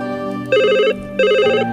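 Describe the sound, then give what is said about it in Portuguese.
Two short, trilling rings of a telephone bell sound with a brief pause between them, each burst bright and warbling over a steady low background. “Vamos ao telefone.”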